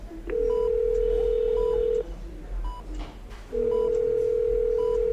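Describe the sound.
Telephone dialing tones as a call is placed: a loud, steady tone is broken by a short pause and then resumes, with a few short beeps sounding at intervals throughout.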